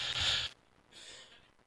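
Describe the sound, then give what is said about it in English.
A single sharp cough bursts out loud and brief, then gives way to a quieter, breathy rasp. “had to cough a little bit there, sorry.”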